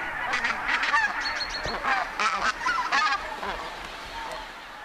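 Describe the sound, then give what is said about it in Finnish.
Bean geese and tundra geese arriving in small family flocks call together, the deep chatter of the bean geese mixing with the shriller cackling of the tundra geese. Many overlapping honks form a busy, continuous chorus that eases slightly toward the end. “Metsähanhen syvä pajatus ja tundrahanhen kimeämpi kilkatus sekoittuvat toisiinsa.”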